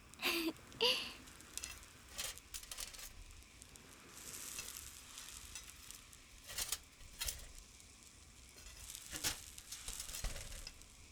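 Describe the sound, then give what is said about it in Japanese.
Oysters sizzling as they cook, their juices running out, give off a steady frying hiss. Sharper crackles and pops burst out at irregular moments over the bubbling. “ああ、カキの汁が出てる。おいしそう。あともうちょっとだね。”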